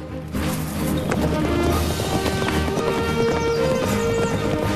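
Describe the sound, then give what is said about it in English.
Three horses gallop through a sunny clearing, their rapid hoofbeats drumming on the ground in a loud, continuous stream that runs through the whole clip. “Tyler, Jesse and Jordan gallop through a sunny clearing ablaze with leaves of rich red and gold.”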